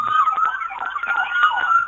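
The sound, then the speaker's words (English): Ambulance siren from a coastal ambulance rolling in a back-to-school themed parade, a loud, steady wavering electronic wail that holds throughout without pause. “Now we have our coastal ambulance.”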